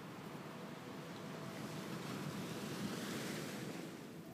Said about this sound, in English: Standing there on the shore, watching the waves crash at your feet and the water recede out.